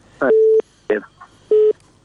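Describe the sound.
Telephone line tones as a listener's call is taken on air: two steady mid-pitched beeps, each cut off sharply, set among short clipped bursts of line noise.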